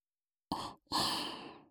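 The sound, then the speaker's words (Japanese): Soft, airy blowing into the listener's ears, heard as two faint breath puffs: a short one followed by a longer, steadier exhale. “お兄さんのお耳、いっぱい、ふうふうしちゃいますね。”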